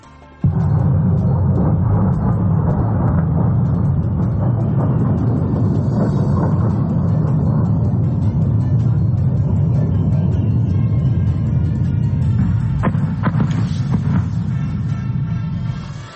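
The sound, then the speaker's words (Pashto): Aircraft attacking near Damascus, Syria: a continuous, heavy, low roaring rumble holds for about sixteen seconds and tapers off slightly at the end. “دا د هغو الوتکو ژغ چې رویټرز اژانس د دوی ژغونه ثبت کړي دي چې تقریبا نیم ساعت مخکې د سوریې مرکز دمشق ته نږدې حمله کولې.”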